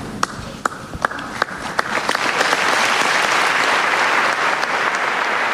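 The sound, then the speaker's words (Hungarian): Applause from a large crowd of pilgrims after a papal blessing at an audience, opening with scattered individual claps that quickly swell into dense, sustained clapping. “A mai napon is tapsal köszönik meg a zarándokok sokasága Ferenc pápa áldását”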